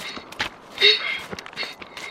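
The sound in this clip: Children run on foot, giving quick, irregular light footfalls and soft thuds of varying strength, with one louder step or scuff near the middle.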